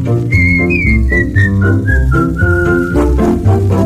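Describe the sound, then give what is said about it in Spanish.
Whistling of a cheerful melody by people together in a vintage song, bright stepping notes carried loudly over a full band accompaniment. “Silbemos todos juntos esta alegre melodía.”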